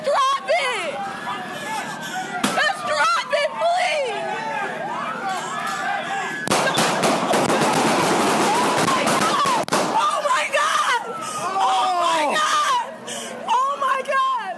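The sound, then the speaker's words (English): Rapid volley of gunshots as five police officers in San Francisco open fire on a man holding a knife, a dense burst of sharp cracks set between loud, frantic shouting voices before and after. “What you just heard was five San Francisco police officers shooting and killing Mario Woods”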